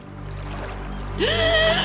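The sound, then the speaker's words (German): Water parts as a submarine surfaces: a low, steady rumble builds, then a sudden bright surge with a rising tone breaks in partway through and continues to the end. “Plötzlich teilte sich das Wasser und ein U-Boot tauchte an der Seeoberfläche auf.”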